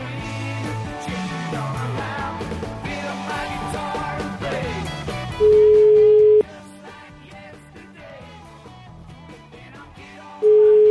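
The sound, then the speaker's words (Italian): Telephone ringback tones on an outgoing call: two long, steady, mid-pitched beeps with a pause between them, heard after music fades down. Faint music continues under the tones. “Vabbè, chiamiamolo, dai ragazzi, chiamiamolo, dai. Fatemi il numero del TAO, Tanto ce l'abbiamo là, sempre sotto mano.”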